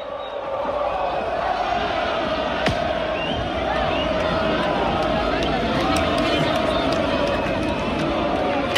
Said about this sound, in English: Of 60,000 Lens fans welcoming their team back after they beat Nice to win the Coupe de France for the first time in their 120-year history.